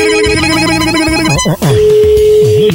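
A telephone rings after a call is placed, sounding as a loud electronic ringtone of steady, bright tones with warbling melodic swoops and a short break midway.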